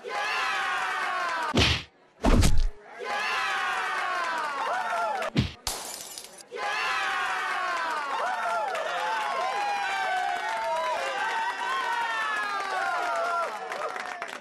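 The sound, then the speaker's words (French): Punches land in a pub fistfight as a few heavy thuds and smashing blows hit. Between them, a loud, steady roar of shouting, cheering crowd voices carries on. “Dans une grande colère, Antoine saute sur le shérif et une grande bataille éclate. Antoine donne des grands coups de poing sur le shérif.”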